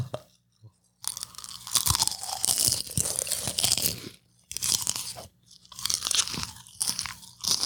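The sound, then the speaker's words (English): Crunching and chewing of a mouthful of popcorn, loud and close, with many dense crunches in bursts broken by short pauses. “Now we're going to do a mouthful of popcorn ASMR.”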